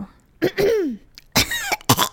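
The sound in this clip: Phlegmy coughing and throat clearing in a few short, rough bursts, one with a gravelly tone sliding downward, heard alone without talk.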